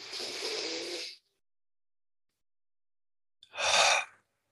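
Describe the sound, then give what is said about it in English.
Breathwork exercise: a long, soft, breathy inhale through the nose, then after a silent gap of about two seconds a shorter, fuller exhale out through the mouth. No talk is heard. “Take a big breath in through your nose and then breathe out through your mouth.”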